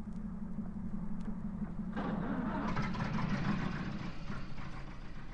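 A car engine rumbles steadily at idle, then after about two seconds it grows louder and rougher as it revs up, holding a dense, even drone to the end with no voices.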